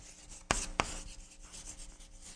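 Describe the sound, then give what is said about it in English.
Writing on a surface begins with two sharp taps, followed by continuous soft scratching and rubbing strokes at a low, even level. “Let me write that down.”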